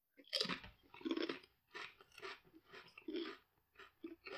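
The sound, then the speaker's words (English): Crunching of crab-flavored potato chips with a Chesapeake Bay crab seasoning: many crisp, loud bites and chews follow one another in an uneven rhythm, with no talking. “We have potato chips that are flavored like your hometown crab.”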